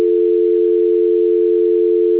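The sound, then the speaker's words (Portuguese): A steady telephone tone sounds during a call transfer, one unbroken pitch held at constant loudness with no voices. “É só um momentinho, a ligação vai ficar no mudo. Transferência.”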